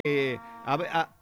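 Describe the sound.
A cow lowing, two quick harmonic moos one after the other: a steady first call, then a slightly longer, wavering second one, clear and alone.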